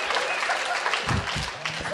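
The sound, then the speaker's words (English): An audience claps steadily at a live talk, a dense wash of applause that stays fairly loud throughout, with a brief voice rising under it midway. “Why aren't you clapping?”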